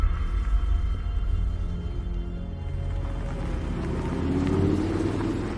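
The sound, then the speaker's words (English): A car engine rumbles as the car drives into a large, hazy warehouse, a deep continuous drone with a low hum that swells slightly toward the end. “Frank drives inside. There's another car parked in the large empty space. Frank drives past and into the main hazy warehouse space.”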